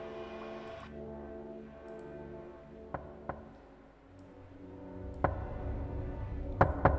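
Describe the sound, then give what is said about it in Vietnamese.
A few sharp knocks on a door stand out over a sustained, tonal musical background: two close raps, then more isolated taps later, each brief and fairly crisp against the steady drone. “Có tiếng gõ cửa vang lên.”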